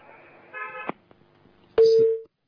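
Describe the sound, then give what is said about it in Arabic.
A single steady telephone tone sounds on the line after a call disconnects. It comes as one loud, flat-pitched burst of about half a second, following a short stretch of voice and quiet. “انقطع اتصال.”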